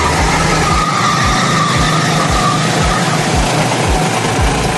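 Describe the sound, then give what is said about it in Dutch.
Go-kart engines racing on the Silverstone circuit in a field of about a hundred karts, a loud, continuous engine roar with a rhythmic pulsing low tone repeating throughout. “Op het circuit van Silverstone nam hij het op tegen 100 mensen in een kart.”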